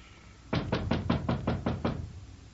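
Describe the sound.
Heavy knocking on a door as an impatient visitor tries to get in: seven rapid, evenly spaced, loud thuds in a single burst, then quiet.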